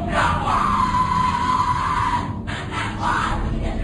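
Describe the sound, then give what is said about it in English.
Loud, drawn-out yelling and shouting from several voices at a Skull and Bones initiation ceremony, captured on a secret recording, breaks off briefly and then resumes with more shouts. “What you're hearing is the first recording ever made of the Skull and Bones initiation ceremony. It has never been broadcast before.”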